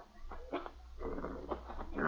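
A mongrel dog gives a few faint, short whimpers and yips in quick, uneven bursts, soft and high, with a low steady hum underneath.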